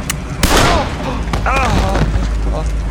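A gunshot is fired at a wounded fireman aboard a steam locomotive. A sharp, loud blast is followed by strained vocal sounds and cries.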